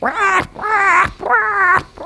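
A person imitating an animal's alarm call with the mouth: three loud, harsh, harmonic screeches in quick succession, each wavering in pitch, with short gaps between them.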